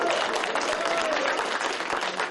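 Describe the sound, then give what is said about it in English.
A round of applause for a football team after a hard-fought division win: thick, continuous clapping that stays at a strong, steady level throughout. “Hey, give yourself a round of applause.”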